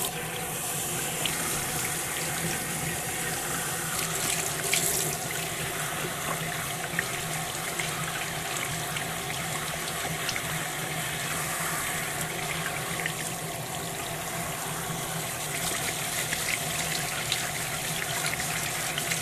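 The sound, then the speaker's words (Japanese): Warm water runs steadily from a tap to rinse hair before shampooing, a continuous, even hiss and splash that stays fairly faint and unbroken throughout. “じゃあワックス落とすからまずシャンプーするね。 お湯の温度を見て、 はい、目つぶってガーッといくよ。”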